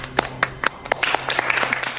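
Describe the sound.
Applause from a small group welcoming staff at a spa and healing center, a light scattering of claps that starts sparse and grows denser, with faint voices underneath.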